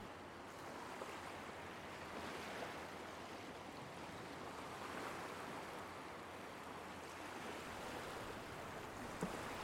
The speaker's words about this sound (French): C'est comme si les vagues dansaient juste pour toi, par un doux mouvement de va-et-vient, de la mer au sable blanc, puis du sable blanc à la mer.